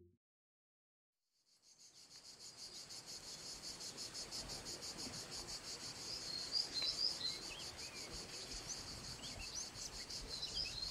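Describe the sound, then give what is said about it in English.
Native forest ambience from southern Europe: a dense, shrill chorus of crickets and other insects pulses continuously with occasional high bird chirps, fading in after a short silence and staying soft and steady. “What you're hearing is the sound of a native forest in southern Europe.”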